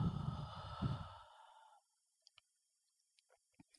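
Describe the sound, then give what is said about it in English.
Deep breath during a guided breathing exercise: a long, audible exhale like a heavy sigh, loud at first and fading away over a couple of seconds, then near silence broken by a few faint clicks. “Take a deep breath in for me. And exhale.”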